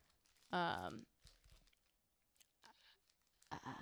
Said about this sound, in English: Thoughts on the Three Musketeers before you eat it?